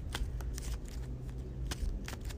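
Cards being drawn and handled during a tabletop board game give several quick, papery rustles and slides, crisp and steady against a low background hum, with no talking.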